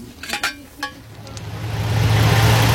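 A bus engine rumbles on a ride home. A few brief clinks come first, then a low, steady drone swells in loudness and settles into a constant hum.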